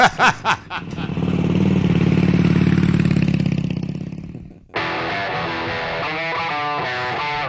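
A motorcycle engine sputters a few times, then settles into a steady revving drone that swells and fades before cutting off abruptly into a different steady sound.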